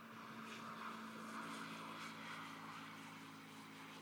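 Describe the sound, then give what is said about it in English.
A scooter passes by near a restored wartime airfield control tower, producing a faint, steady, low engine drone that holds evenly throughout with no sharp peak. “I'd love to say that was the sound of a plane. A ghost plane, perhaps. It was the sound of a scooter.”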